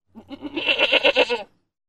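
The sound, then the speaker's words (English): A goat bleats once, a loud, tremulous cry of about one and a quarter seconds with a wavering, pulsing quality, heard alone with no talk. “Goat.”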